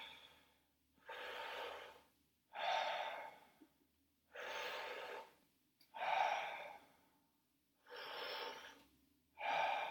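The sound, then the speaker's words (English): Connected breathing exercise with full breaths in and relaxed breaths out, airy and fairly loud, each lasting over a second, alternating in a steady, even rhythm with short pauses between and no talk. “Connected breathing, gonna start up now. Fully in, relax out.”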